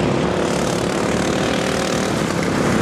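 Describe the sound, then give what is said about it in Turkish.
Engines of modified racing lawn mowers roar in a nine-hour race for 30 teams in England, with machines reaching about 80 km/h. The engines make a loud, steady, unbroken drone with no talk. “Motor sporlarının en sıra dışı yarışlarından biri İngiltere'de büyük heyecana sahne oldu. 30 takım modifiye edilmiş çim biçme makineleriyle 9 saat boyunca mücadele etti.”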